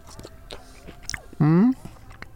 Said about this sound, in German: Du beißt zuerst rein. Ich beiß rein. Du zuerst.